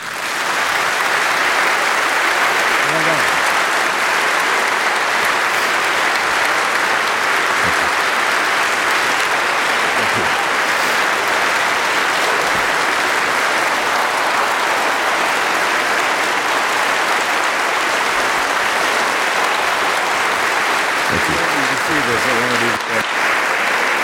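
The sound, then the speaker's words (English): Standing ovation applause rises from the audience at a Westminster Church forum event: loud, dense clapping from a large crowd, sustained without a break for over twenty seconds at a constant level. “thank you in the audience here at Westminster Church for that standing ovation.”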